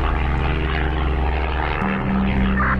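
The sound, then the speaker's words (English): Loud, steady propeller-aircraft engine drone during a stable flight after takeoff, a continuous low hum with no voices and only a slight shift in tone near the end. “Take off was so nice. Even the flight is very stable.”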